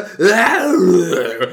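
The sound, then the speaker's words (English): A man's voice imitates a film character's loud, strained grunting growl in one rough, throaty sustained sound lasting over a second. “he's just grunting, growling, and it takes up 80% of the movie, like, and it's so loud”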